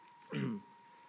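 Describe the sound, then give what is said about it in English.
A single short throat clearing during a Bible teaching on saints, a brief, low, rough burst that is fairly faint, with no talk around it. “Sorry, I got something in my throat.”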